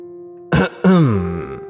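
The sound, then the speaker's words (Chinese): A voice performs a throat clearing for a storybook character: a short harsh rasp, a brief pause, then a longer voiced grunt that slides downward in pitch and trails off. “我的被子煞有介事的清了清喉咙。”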